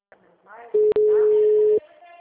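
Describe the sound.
Telephone call tones as a call is forwarded to voicemail: a steady mid-pitched tone about a second long, broken by a brief click just after it starts, with faint low-level sound before and after.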